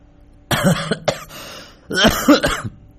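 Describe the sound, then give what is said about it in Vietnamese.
A woman coughs hard in two harsh, rasping bursts of several coughs each, separated by a short pause, with no talk. “Mẹ Vũ đột nhiên ho lên sù sụ.”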